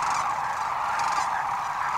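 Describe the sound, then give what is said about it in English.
Sandhill cranes calling at wetlands, a dense flock chorus of overlapping honking calls that forms a steady, unbroken wash of sound throughout. “Shorebirds of 27 species use the wetlands. So do 500,000 sandhill cranes.”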